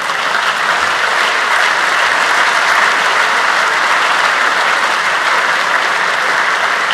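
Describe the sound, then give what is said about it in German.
Audience applause at a talk about open-source phone operating systems: a dense, continuous wash of clapping that stays loud and steady throughout, with no voices over it. “Und wir möchten gerne Applaus dafür, dass das Neo 1973 jetzt schon 3 Stunden ohne Stromanschluss”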